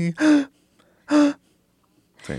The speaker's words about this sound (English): If you could tell where I took a breath, there it is, right?